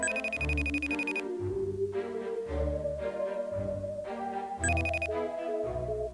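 Electronic telephone ringing sounds as a call is placed, in two bright, rapidly pulsing bursts, one at the start and one near the end, over a continuous tonal background with a steady pulsing low note.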